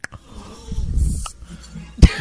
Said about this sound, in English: There's a click and then he breathes really heavy.